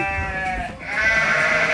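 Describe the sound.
A human voice imitates a calf bleating: two drawn-out, nasal, wavering bleats run back to back with a brief dip between them, loud and alone with no talk.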